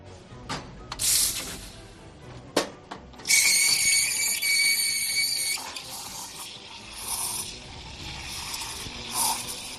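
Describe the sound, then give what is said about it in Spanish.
A coffee machine in a restaurant getting ready to open: a few sharp clinks and clatters, then a sustained high steam hiss for about two seconds that fades into softer running and spraying noise. “Este es el sonido de una cafetera y de, bueno, la gente que trabaja en este restaurante en el que estoy, que se llama Casa Jaguar, que están preparándose para abrir.”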